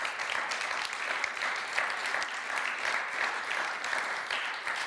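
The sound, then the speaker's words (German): Clapping from a group, a continuous, moderately quiet patter of many hands that holds steady throughout with slight swells in intensity. “Ja, ich darf jetzt auch klatschen.”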